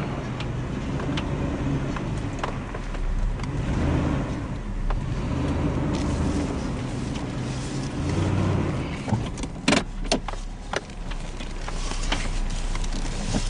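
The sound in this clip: A car drives up a road with a steady mid-pitched engine drone and road noise, and a few brief knocks and bumps break in near the end.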